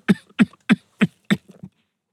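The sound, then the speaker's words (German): A man's coughing fit: five loud, evenly spaced harsh coughs in quick rhythm, followed by a few weaker, shorter hacks that trail off into silence. “Ein Hustenanfall unterbrach ihn.”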